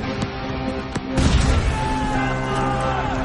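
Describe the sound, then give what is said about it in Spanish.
A hand grenade exploding in a WWII battle scene: a couple of small sharp clicks, then a sudden heavy burst that gives way to a sustained, dense rumble over a steady tonal background. “El soldado de la ametralladora lanza una granada. Los rusos reptan hacia él. Lanza otra granada.”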